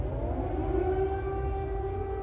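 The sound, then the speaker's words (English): Air raid sirens wail over Kyiv during heavy bombardment by airstrikes, a loud, steady, sustained tone that holds throughout with no voices. “Air raid sirens sounded as the capital came under heavy bombardment from Russian airstrikes.”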